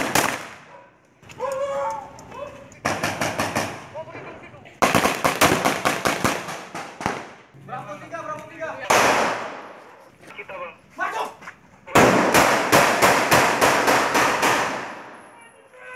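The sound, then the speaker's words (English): Gunfire during a 2017 Indonesian counter-terrorism police raid on terror suspects: a few loud volleys of rapid, sharp cracks in quick succession, separated by stretches of people talking. “That was the sound from a raid on terror suspects in 2017 by the Indonesian counter-terrorism police force known as Detachment 88.”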